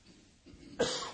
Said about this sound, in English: About to cough.